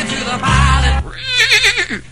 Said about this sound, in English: And the little-known incident where Benedict Arnold tries to hijack Paul Revere's horse.